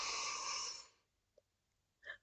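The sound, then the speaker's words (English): A slow, deep breath fills the first second as a loud, airy rush, then fades out. A faint tick and a short soft puff follow. “I want you to take a deep breath in and push your hands”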